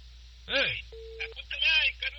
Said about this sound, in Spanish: Tengo uno, márquenle. Una llamada.